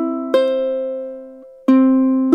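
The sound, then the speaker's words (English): A ukulele C chord is played as a broken chord on the top three strings, with a few bright plucked notes that sustain and overlap as each new string sounds. “When I play my C chord, it'll sound like this.”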